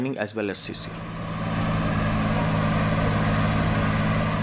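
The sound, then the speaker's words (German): A massive German-made surface miner drones steadily as it drives and crushes coal, a dense, even machine roar that swells after a brief voice at the start. “Ein gewaltiges Minenfahrzeug zerkleinert beim Fahren die Kohle. Der Ingenieur Chief Das Peggy erklärt strahlend, dass dieser sogenannte Surfers Miner aus Deutschland stammt.”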